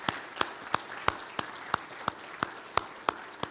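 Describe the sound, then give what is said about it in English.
Rhythmic applause from an audience at a morning gathering honouring military veterans, heard as sharp, evenly spaced claps about every third of a second, fairly loud and steady with no talk over it. “Let's give them a round of applause, please.”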